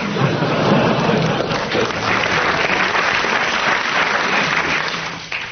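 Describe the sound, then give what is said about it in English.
Studio audience applause, a dense, steady wash of many hands clapping that stays loud throughout and eases slightly only at the very end. “You're getting bonuses of 10 marks each every time the audience applauses, so carry on.”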